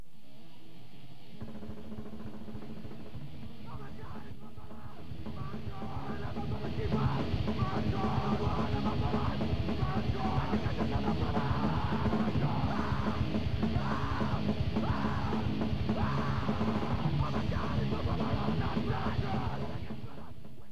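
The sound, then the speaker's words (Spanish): A crowd shouts at a protest demonstration. Massed yelling swells noticeably after the first few seconds into steady, rhythmic chanting that stays loud and dense until the end. “hemos empezado con los gritos que se oían en la última mani.”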